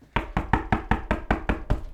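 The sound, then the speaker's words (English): A storm of knocks on a door: a rapid, steady run of heavy, evenly spaced blows that keeps going for the whole clip. “There came a storm of knocks, and a door appeared, TARDIS blue.”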